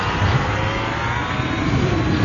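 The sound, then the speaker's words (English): A speeder vehicle's engine revs as it is slammed into gear, a loud, continuous roaring whine over a rough low rumble that holds steady throughout, with no voices. “flung himself into the best-looking of the speeders and slammed it into gear”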